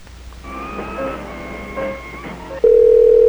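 Telephone tones play: a stretch of layered electronic beeps gives way to a loud, steady single tone that continues to the end.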